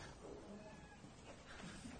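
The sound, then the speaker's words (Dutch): A cat walks in and gives soft, faint meows, low in level and somewhat muffled, with no clear talk over them. “Er komt nu een poes binnen voor de luisteraars thuis.”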